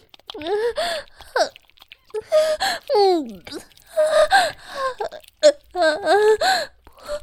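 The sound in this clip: A child cries in repeated sobbing bursts of high, wavering wails broken by gasping breaths. The crying is loud, stops and starts, and carries no clear words.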